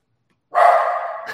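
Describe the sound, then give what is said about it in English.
A guard dog barks: one loud, drawn-out bark, then the start of a second bark at the very end. “My guard dog just went in full guard mode.”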